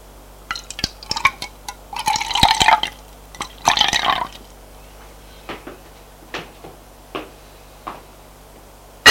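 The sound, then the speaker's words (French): Water being poured into a glass: a few gushing, splashy bursts in the first four seconds, followed by a series of small, sharp drips or taps at irregular intervals. No one speaks. “Remplis le verre d'eau.”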